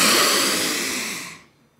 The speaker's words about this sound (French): une grande inspiration